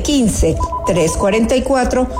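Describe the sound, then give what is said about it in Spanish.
A telephone rings with an incoming call. Its tone is mixed into a voice that talks over it for the whole clip. “tenemos una llamadita.”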